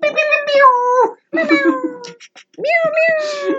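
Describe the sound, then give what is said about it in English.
A cat horn sound effect gives three loud, harmonic meowing calls in a row. Each is a sustained nasal tone that sags slightly in pitch, with brief gaps between them. “See, that's a cat horn.”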